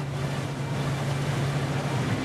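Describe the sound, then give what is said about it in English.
Steady rushing noise from a Candela electric hydrofoil boat near Stockholm, a broad, constant wash of sound over a low, even hum, unchanging from start to end with no speech. “This isn't just a fast boat. It's a boat that flies. This beauty is the Candela electric hydrofoil.”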